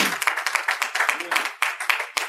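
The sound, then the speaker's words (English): A church audience claps in praise to the Lord, with steady rhythmic hand clapping from many people keeping a quick, even beat. “Give the Lord a hand and clap of praise.”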